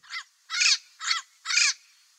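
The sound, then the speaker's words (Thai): Parrot contact calls: four harsh, raspy squawks in a short-long-short-long pattern, each one a burst of rough, buzzy tone, fairly loud with clean silence between them. “นักชีววิทยาเรียกเสียงพวกนี้ว่าเสียงติดต่อของนกแก้ว”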